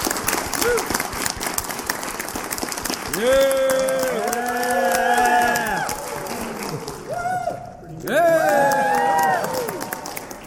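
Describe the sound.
Applause and cheering from a fan convention audience welcoming a comics Hall of Famer to a spotlight panel, a continuous crowd roar of clapping with loud rising and falling whoops and shouts throughout.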